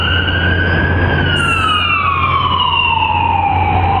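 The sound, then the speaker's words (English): An ambulance siren passes, its loud, steady wailing tone sliding gradually lower in pitch over a low engine rumble, with no voices. “yay, ambulance, go get them.”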